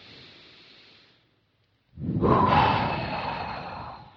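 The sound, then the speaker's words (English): A deep breath drawn in through the nose and released out through the mouth as part of a calming routine: a quiet, steady inhale, a short silent pause, then a much louder, longer, rushing exhale, with no talking. “we're just going to take a deep breath in through the nose and out through the mouth.”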